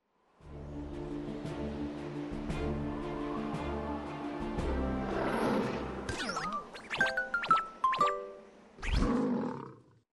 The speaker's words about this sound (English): L is for lion.